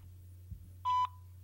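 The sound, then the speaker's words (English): A single telephone keypad tone during dialing: one short, steady beep of about a fifth of a second over a constant low electrical hum. “If you hit dial pad 1, it goes right to the voicemail.”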